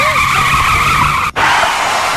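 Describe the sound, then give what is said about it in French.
A Formula 1 race car skids with a steady, high whining tire squeal that holds one sustained tone, broken by a brief sharp dropout near the end before it resumes. “Bon, je te le remets, le bruit de Formule 1.”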